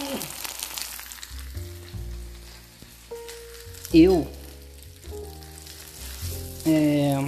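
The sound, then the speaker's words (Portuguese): Pizza crackling and sizzling in a frying pan, a steady fine crackle that continues throughout, with louder flare-ups around the middle and again near the end. “ouve só esse barulhinho da pizza estralando na frigideira.”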